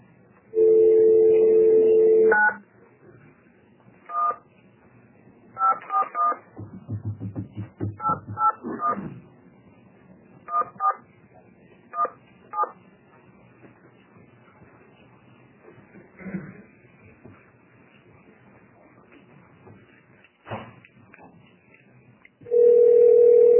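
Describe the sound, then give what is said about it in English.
Dialing a landline to reach an extension office during a Senate committee hearing: a steady dial tone is followed by many short DTMF keypad beeps in uneven bursts, and another steady tone returns at the end. “Now we can dial. Go ahead.”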